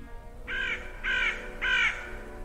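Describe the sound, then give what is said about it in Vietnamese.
A crow caws mournfully three times in a dark second-floor hospital corridor, harsh evenly spaced calls over a steady low background hum. “ở giữa hành lang tối tăm của lầu 2 bệnh viện Kim Hồng, từ đâu đó vang lên tiếng quạ kêu ai oán.”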